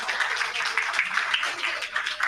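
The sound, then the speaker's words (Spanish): Applause for a team that has just presented what they observed under a microscope: a dense, even patter of many hands clapping at once, continuing without pause. “Aplauso también a ese equipo.”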